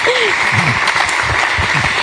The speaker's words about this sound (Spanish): Muchas gracias por estar hoy aquí. Un aplauso también para Pilar, que nos queda.